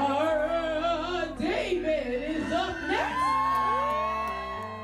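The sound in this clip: Audience whoops and cheers for a drag performer over music, several high shouts rising through the crowd noise before the sound thins and fades toward the end.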